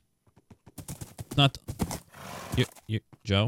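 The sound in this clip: A Minecraft horse whinnies in a few short, breathy bursts among other game sounds. The final call is the longest and wavers in pitch.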